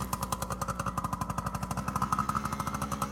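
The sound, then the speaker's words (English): A motorcycle engine runs in a rapid, even putter of closely spaced firing pulses. The sound is fairly faint and steady, with no talk over it. “Let's hear him try to start the motorcycle.”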